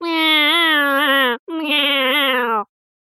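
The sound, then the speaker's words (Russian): A person imitates a cat with two long, plaintive meows in a trembling, slightly bleating voice. The second meow is a bit shorter and sags in pitch at its end, with silence afterwards. “изобразив из себя кошку протяжным жалобным мяуканьем”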